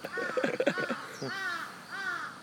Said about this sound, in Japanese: いや、カラス出てきましたね